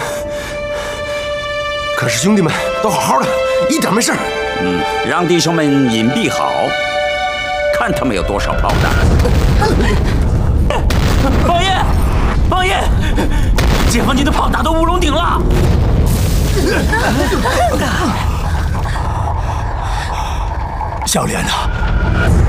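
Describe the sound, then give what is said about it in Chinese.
Artillery shelling, gunfire and explosions in a battle, heard as dense, rumbling bursts and cracks throughout, with people talking and calling out over the din. “王爷，王爷，侯哥报告，解放军炮击南天门。”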